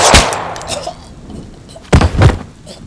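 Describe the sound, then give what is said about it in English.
A handgun firing: a loud, sharp bang at the start, followed after a pause by a couple more heavy, abrupt bursts. “Angel grabs the gun from my belt and fires”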